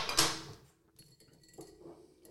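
Homemade speculaas-spice bitter is poured from a stirring glass into drinking glasses already filled with ice, opening with a bright glassy clink, followed by a faint liquid trickle and light tinkles of ice.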